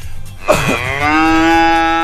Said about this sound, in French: On l'a entendu, la vache.